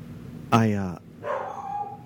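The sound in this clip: A dog barks once, a sharp, loud, tonal yelp that breaks off abruptly, followed by a softer, drawn-out lower sound trailing after it.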